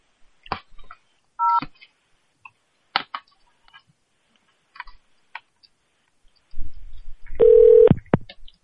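A telephone keypad gives a short dual-tone beep as a number is pressed on a phone menu. Scattered soft clicks surround it, and a longer steady tone sounds near the end.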